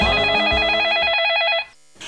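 A telephone rings for a call-in line, one loud warbling electronic trill lasting about a second and a half before it cuts off.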